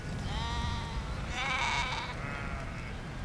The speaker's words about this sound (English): I think that is the only ewe I have this year with lambs. She came towards you.